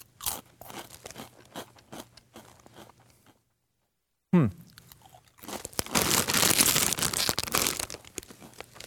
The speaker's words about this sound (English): Okay, here we go. Wavy Funyuns onion-flavored potato chips.